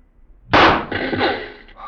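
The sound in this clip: A rifle shot fired at a target in a Mounted Police radio drama: a single loud, sharp crack followed by a long, ringing decay that slowly fades.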